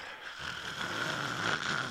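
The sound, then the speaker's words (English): A voice imitates a child snorting with one drawn-out, breathy, nasal snort. It rises slightly in strength before cutting off. “he would like lean back his head and like not snoring, just like snorting”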